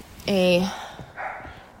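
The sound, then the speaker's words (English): A dog barking at home during a recorded conversation: one drawn-out, tonal bark followed by a shorter, rougher second bark, both moderately loud against a quiet background. “Well, the dog's barking.”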